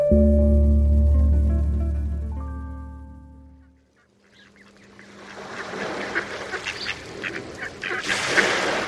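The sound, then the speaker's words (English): Migrating mallard ducks quacking in a front yard on Long Island Sound: harsh, raspy calls build up and grow louder after a sustained low tone fades away. “Migrating mallards usually find their meals during stopovers in coastal marshes.”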